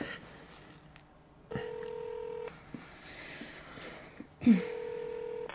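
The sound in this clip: A telephone rings with an electronic tone in two steady bursts of about a second each, separated by a pause. The rings are fairly faint over a quiet background.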